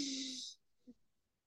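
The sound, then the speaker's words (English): One breathy exhalation from a person with a blocked nose during a gentle breathing exercise, lasting about half a second with a slight tonal whistle, then a faint brief snuffle. “Hold the top. And exhale.”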